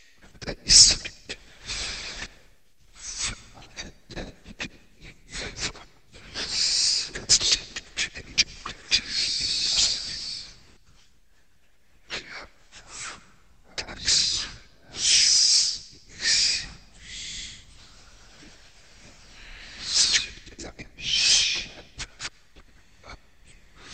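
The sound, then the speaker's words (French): Audible breath made into sound for a voiceless piece on magnetic tape: many irregular breathy hisses and puffs of air, some in louder clustered bursts, separated by brief quiet gaps, with no voice. “John Cage se délecte des possibilités de la voix sans la voix, mais uniquement par le souffle rendu sonore dans ses voiceless essais pour bande magnétique.”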